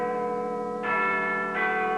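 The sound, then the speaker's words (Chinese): A school bell rings to mark the end of class, a sustained, harmonically rich metallic tone that brightens with two fresh strikes, steady and moderately loud with no voices. “这时学校的下课钟声响了起来。”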